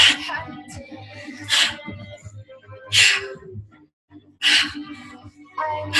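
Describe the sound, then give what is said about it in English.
Forceful, airy breaths come from a guided breathwork session. About five sharp bursts arrive at an even, quick pace over a soft, low droning music bed. “Here we go. Big breath in.”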